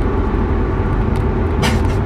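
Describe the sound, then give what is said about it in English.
Houston road traffic, with cars and buses passing as a continuous low engine rumble and drone at steady loudness. A brief airy hiss rises near the end. “if I curse and yell and scream and cry at the same time, just know it's just Houston traffic at its best, taking its toll on my soul.”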